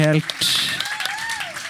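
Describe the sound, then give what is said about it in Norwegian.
Brief audience clapping at a live music event breaks out right after a voice stops, a short burst of hand claps with talk continuing over it. “Vi klapper eller noe så vi bryter av”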